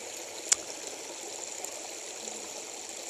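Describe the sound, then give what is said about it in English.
Flowing water of a stream makes a steady soft rushing and trickling hiss throughout, with one brief click near the start. “just listening to the water, the birds, nature.”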